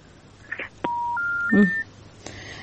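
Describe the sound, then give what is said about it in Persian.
Telephone tones sound as a phone call drops: a click, then a steady electronic beep that steps up in pitch three times, followed by another click and a fainter tone at the end. “بازم تماس از اینا قطع شد.”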